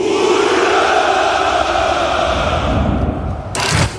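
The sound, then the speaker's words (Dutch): Russian soldiers at a Victory Day parade shout hurrah, a loud sustained roar of massed voices that slowly fades, then swells in a short burst near the end. “De jaarlijkse hoera voor de overwinning in de Tweede Wereldoorlog klinkt dit jaar toch net iets minder overtuigend.”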